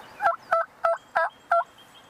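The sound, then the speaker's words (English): Wild turkeys gobbling at a suburban bird feeder: five evenly spaced, loud, rattling gobbles in quick succession, each a short warbling burst separated by brief gaps. “They're eating bird seed along with the squirrel out of the bird feeder. Oh, they're so happy. Oh, yeah. Those are two turkeys that have adapted to their surroundings.”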